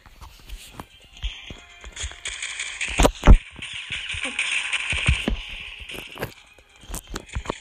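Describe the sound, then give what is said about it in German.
A quick magazine reload in the shooter game PixelStrike3D brings many sharp mechanical clicks and taps in an uneven rhythm, with a few louder snaps in the middle over soft scuffling. “Äh, Magazinwechsel habe ich jetzt gerade nochmal schnell gemacht.”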